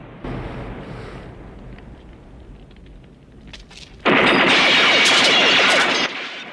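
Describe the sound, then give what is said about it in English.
Rapid gunfire from Rambo shooting out the windows of a sheriff's office in a film: a quieter rumbling stretch gives way to a sudden loud, dense burst of shots that holds for about two seconds, then cuts off. “Rambo shoots the windows of the sheriff's office.”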